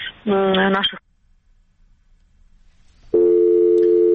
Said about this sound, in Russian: Как вы слышали, оборвался, к сожалению, звонок